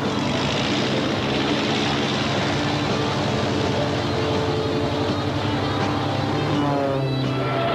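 A propeller airplane's engine drones loudly and steadily throughout, a dense, even roar with a low throbbing pulse and no breaks.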